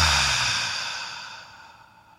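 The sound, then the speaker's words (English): A single long, breathy exhale through the mouth that starts full and slowly fades away over about two seconds, soft and airy with no voice. “let's just take a nice breath in and then out through the mouth”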